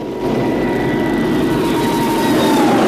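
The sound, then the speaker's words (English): Engine roar of a small black plane taking off down a runway at night: a loud, steady drone with thin whining tones held throughout, and no voices. “Murdoch joins Troutman on the tarmac. The small black plane takes off, blending with the darkness of night.”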